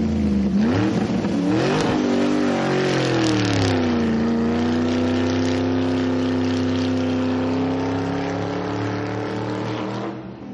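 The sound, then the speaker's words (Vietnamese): A racing motorcycle engine revs hard during a wheelie, its loud buzzing drone swooping up and down in pitch early on, then holding a steady, sustained roar throughout with no other sounds. “Chiếc mô tô đùa bốc đầu, lao qua đám người mặc đồ bảo hộ, rồi tiếp đất.”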